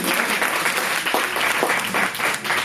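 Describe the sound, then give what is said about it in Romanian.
Sustained audience applause at a show, a dense, even patter of many hands clapping at steady loudness from start to finish, with no talk over it. “dacă e cineva, hai să-l aplaudăm. Asta a fost reacția.”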